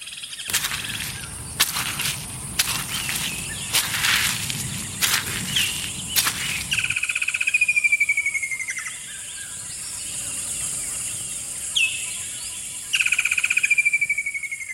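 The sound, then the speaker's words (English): Birdsong on a forest walk: a series of sharp crackles through the first half, then repeated bright whistled chirps and calls over a faint steady background. “Nature Valley invites you to take a minute to re-energize with the sounds of nature, starting with this walk through the forest.”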